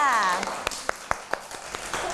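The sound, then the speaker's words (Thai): Young children clap for a classmate's molded artwork. A voice speaks briefly at the start, then sparse, uneven single claps follow one after another. “ใช่แล้วค่ะปรบมือให้กับน้องน็อตหน่อยค่ะ”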